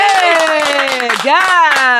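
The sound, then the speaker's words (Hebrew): Rhythmic audience clapping at a live show, about four steady claps a second beneath a loud voice that holds long, gliding tones. “מחיאות כפיים!”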